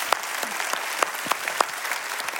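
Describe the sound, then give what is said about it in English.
Audience applause at a church service: steady, dense clapping with a few sharper claps standing out, continuing evenly to the end. “Let's give everybody a big hand out there.”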